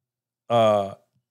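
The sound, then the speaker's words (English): A mobile phone notification sounds once: a single steady, buzzy tone lasting about half a second, heard alone. “y'all heard that? That was my phone.”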